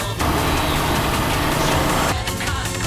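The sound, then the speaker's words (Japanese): Engine of a Nissan GT-R car in a road race, a loud, dense, continuous roar that fills the whole clip and shifts in tone briefly near the end, with no talking. “GTR のドライバーちゃんと踏んでないな。”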